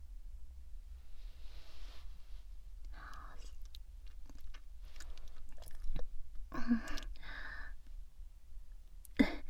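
Someone chews cake while being fed it by hand. Soft, intermittent wet chewing and mouth noises stay faint, with a few louder bursts toward the end.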